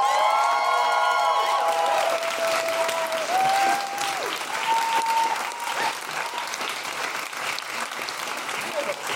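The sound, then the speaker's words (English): Loud audience applause and cheering for a comedian at a Fringe comedy show: sustained dense clapping with whoops and high shouts over it, steady and full throughout, easing slightly toward the end. “Please put your hands together, stamp your feet, and make general woohooing noises for the wonderful Desiree Burch.”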